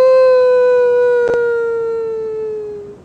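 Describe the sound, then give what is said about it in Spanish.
A person imitates a howl with one loud, sustained tonal wail. It holds steady, then slowly sinks in pitch and fades toward the end, with a brief click partway through. “Hay todo tipo de aullido. Mandate el tuyo.”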